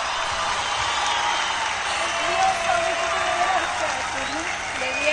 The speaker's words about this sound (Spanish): Un fuerte aplauso para Sofía Morales, que está conmigo esta noche aquí. Y que la ovacione Corrientes, porque es una digna representante de esta tierra.